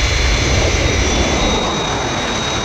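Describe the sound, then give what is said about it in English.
Steady, loud jet aircraft roar from a plane on final approach, about four miles from the runway threshold, holding an even drone with a thin high whine throughout and no voices. “Aircraft approaching glide path. 4 miles to threshold.”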